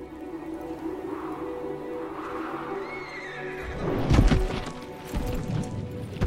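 A horse whinnies in a drawn-out call, then heavy hooves clop and thud as a rider rides off, the hoofbeats loud and irregular over a low steady background.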